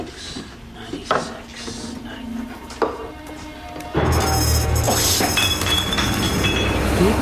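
Glass bottles clink as someone searches a wine cellar for a particular bottle: a few separate sharp clinks, followed by a louder, continuous clatter.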